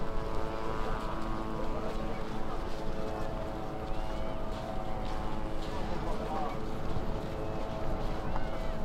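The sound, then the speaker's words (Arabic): Military drones buzz in the sky with a steady, droning hum of layered tones that holds without break over a dense, noisy background. “ولكم في طيارات في الجو صوت زنانات”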